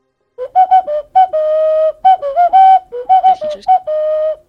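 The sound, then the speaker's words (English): A Colombian ocarina plays a video game theme melody, a clear, pure, whistle-like tone moving through bouncy short notes and longer held ones, loud and alone. “Someone requested that I play the Mario 64 theme on Colombian Ocarina. So I'm going to do that right now.”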